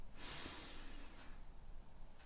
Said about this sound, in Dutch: Adem rustig in.